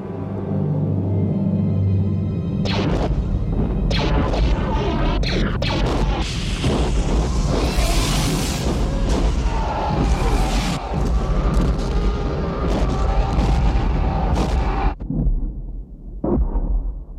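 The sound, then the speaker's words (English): Heavy bomb explosions strike caves on an asteroid's surface in a space film battle scene, a loud, dense barrage of booms and crashes over continuous rumbling that fades toward the end, with no voices. “cutting back to TIE bombers randomly bombing caves along the surface of the asteroid, hoping to strike the hiding Millennium Falcon”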